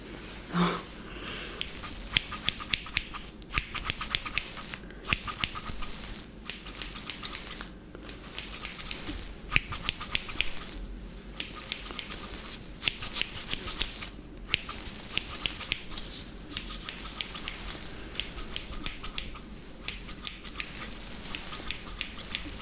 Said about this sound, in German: Und jetzt begebe ich mich ans Schneiden.